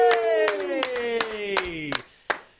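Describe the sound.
A few people clap in scattered bursts for a guest introduced on stage, the claps landing unevenly around a drawn-out cheering voice whose pitch slowly falls before a final clap.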